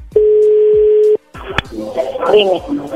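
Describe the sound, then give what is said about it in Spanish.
A telephone number being dialed: a steady, unbroken dial tone holds for about a second and cuts off, then a sharp click and a dense jumble of tones and line noise follow. “A ver, se está marcando de nuevo.”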